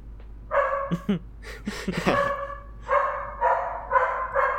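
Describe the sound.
A female dog, upset at being left without company, barks repeatedly in sharp, high-pitched, tonal yips and barks. The bursts come in an uneven series with brief gaps between them, loud and alone with no talking.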